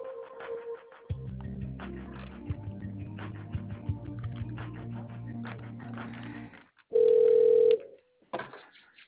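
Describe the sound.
Telephone line sounds while a call is being connected. A low, steady droning tone holds for several seconds, then a single loud, pure beep sounds before brief faint noise.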